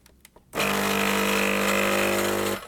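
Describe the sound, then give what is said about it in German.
A fairly quiet espresso machine pump brews a double shot from a large portafilter basket. A few faint clicks come first, then a steady droning hum starts abruptly and stops just before the end. “Schön leise auch die Maschine. Auch ein Unterschied zu den anderen Maschinen übrigens. Wir sehen jetzt gleich, wie der Espresso ja auch in verschiedenen Farben da reinläuft.”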